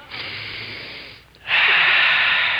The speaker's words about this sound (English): Just let me take a deep breath of this air.